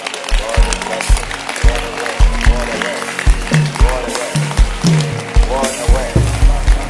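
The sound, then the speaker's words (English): Congregation clapping during a church service: sharp, rhythmic claps repeat throughout under voices, with heavy low thuds at intervals. “Keep clapping. Don't stop.”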